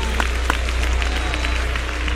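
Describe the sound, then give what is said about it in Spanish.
Congregation clapping in a church service, a few crisp claps over a steady crowd wash with a constant low hum underneath. “Balta sus manos, dele palmas al Señor en esta noche.”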